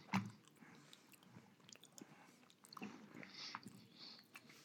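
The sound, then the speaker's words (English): Soft crunching and chewing of chocolate-covered nuts with a thick dark-chocolate coating. Faint, irregular crunches and moist mouth sounds come in small bursts, with no talk. “Oh, we love putting nuts in our mouth. We're not shy about it. You know? Yeah, we sure do. Especially chocolate ones.”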